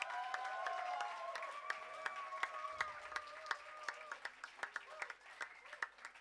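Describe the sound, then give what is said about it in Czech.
Audience clapping together at a church mission gathering in Prague. The applause is dense and steady, then thins into scattered separate claps toward the end, with sustained voices carrying over the first part. “Tak teď mým zatleskeme dohromady.”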